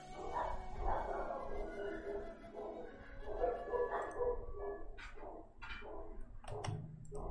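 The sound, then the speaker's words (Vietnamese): A neighbour's dog barks in a few sharp, high yips spaced apart near the end, faint against a low, steady background. “Đợi mình chút ra đóng cửa cái, không biết sao chó nó sủa to quá. Chó nhà hàng xóm sủa nhé.”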